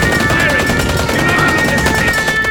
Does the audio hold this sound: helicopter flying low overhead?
no